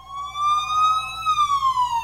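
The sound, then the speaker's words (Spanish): A siren wails as a loud, steady electronic tone that climbs slightly, then drops in pitch while breaking into rapid pulsing warbles. “Sigue la sirena. Síguela. Síguela.”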